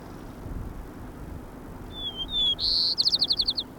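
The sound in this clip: White-crowned sparrow song: a few thin, high whistled notes, then a louder sustained note, ending in a rapid series of short buzzy trilled notes over low background rumble.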